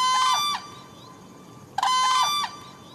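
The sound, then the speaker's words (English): A large, lanky-necked wild bird lets out a loud, primal harmonic call at dusk. Two brassy, ringing calls of about half a second each are separated by a longer pause. “you may see a breathtakingly grand bird stretch its wings, throw back its lanky neck, and let out a primal noise that declares that America still has a wonderfully wild streak.”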